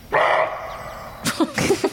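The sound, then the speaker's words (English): A deer barks: a hoarse, drawn-out call, then after a pause a rapid string of short, rough, yelping barks, loud and on its own. “This is the sound of a deer barking.”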